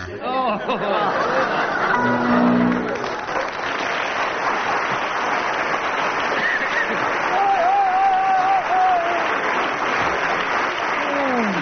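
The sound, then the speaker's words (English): Sustained audience applause after a musical performance at a 1979 broadcasting ball. The clapping is loud and even throughout, with scattered laughter and chatter mixed in. “Well, if audience response is anything to go by, Graham and Barry, you've won.”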